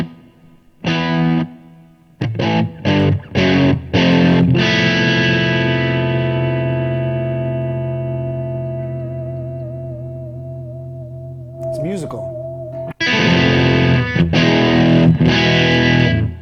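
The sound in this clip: Distorted electric guitar through a small Marshall tube combo amp: a few short choppy chords, then a long sustained chord that rings and slowly fades with a bend near its end, followed by more loud, chugging chords.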